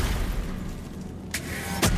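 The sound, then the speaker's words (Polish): A wall is smashed in a video game: two sharp crashing impacts cut through a steady, noisy wash of game sound. “No dobra, rozwal tą ścianę.”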